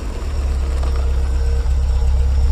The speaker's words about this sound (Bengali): গাড়িটা একটা একতলা টিনের পাকা বাড়ির কাছে এসে দাঁড়াতেই সুনীতিবাবু গাড়ি থেকে নেমে বাড়ির ভিতরে চলে গেলেন।